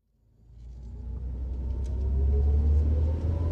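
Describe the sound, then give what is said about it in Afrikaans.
A car being driven, its low engine rumble swelling up over the first second and then holding steady and fairly loud, with no talk over it. “Hoekom bestuur jou ma? Omdat Cindy 'n migraine het. Kyk waar jy ry.”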